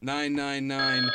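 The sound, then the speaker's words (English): A phone ringtone on a call-in line: bright, sustained electronic tones that step between a few pitches, loud and continuous for about a second, with no talk over it. “Hello, that's the phone. That's how a phone works.”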